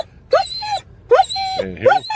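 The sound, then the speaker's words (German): A dog whimpers at the vet in three high, whiny bursts, each sliding upward in pitch and then holding a thin, wavering tone. “Ich versuche es jetzt einmal mit dem Hundevideo.”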